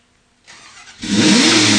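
Car engine starting: a brief quiet cranking sound, then the engine catches and settles into a loud, steady running roar.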